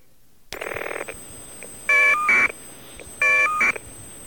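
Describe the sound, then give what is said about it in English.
Caller ID data tones from two separate telephone calls, played back to back: an opening buzzy electronic burst, then two nearly identical short bursts of steady, bright electronic tones, each made of two parts. “I'm going to play the two really, really close to each other now so our listeners can make the final determination. The two bits of caller ID data from two separate calls.”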